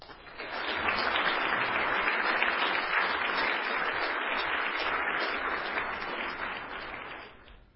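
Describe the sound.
Audience applause welcoming a law professor to speak at a panel discussion. Many hands clap steadily, and the sound swells in at the start and tapers off at the end.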